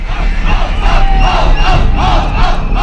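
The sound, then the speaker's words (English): A crowd of protesters chants at a street march, loud rhythmic shouted syllables repeating in a steady cadence over a continuous roar of many voices. “The group waves Syrian opposition flags, and a guy hoisted on someone's shoulders rallies the crowd.”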